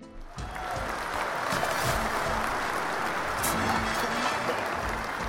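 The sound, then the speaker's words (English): A crowd applause sound effect plays as a dense, continuous wash of clapping that holds an even loudness throughout. “play applause for 10 minutes.”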